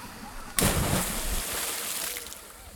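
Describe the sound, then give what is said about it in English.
A plunge into cold water at Wakulla Spring: a sudden loud splash breaks the quiet, followed by about two seconds of steady sloshing and bubbling water that slowly eases. “Well, to see for myself, I came back to Wakulla Spring. It had been a few decades, and I took the plunge.”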